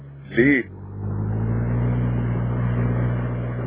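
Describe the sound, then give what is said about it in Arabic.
A car engine with a fault rumbles low and steady, settling into a continuous drone after a brief tonal blip at the start. “العربيه مالها؟ مش عارف، يظهر الموتور في حاجه”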